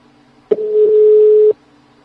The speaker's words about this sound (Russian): Номер занят.